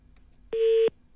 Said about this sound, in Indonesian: Terputus juga talian kita.